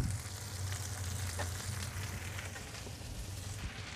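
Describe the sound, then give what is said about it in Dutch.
Sausages frying in a pan with fennel and cauliflower give a steady, crackling sizzle with fine pops, continuous and even in loudness over a low hum. “ik heb de worstjes inmiddels teruggelegd in de pan. Met de venkel en de bloemkool.”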